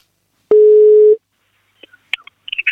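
A single steady ringback tone sounds while a telephone call connects: one sustained mid-pitched beep, lasting under a second, followed by a few faint clicks.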